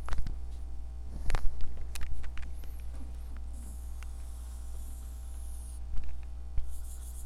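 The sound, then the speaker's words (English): A pen or pencil scratches over paper as someone draws a picture by hand. The strokes are soft and intermittent, coming in irregular clusters over a steady low hum. “This picture I'm going to draw is the reason my health declined.”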